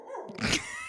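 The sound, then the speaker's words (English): A female dog barks in a short, sharp burst that rises abruptly out of quieter background noise and fades quickly. “The second I start talking, she's going to bark again.”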